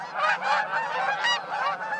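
Geese honking in a gaggle, many loud, nasal calls repeating and overlapping in an uneven rhythm with no voices.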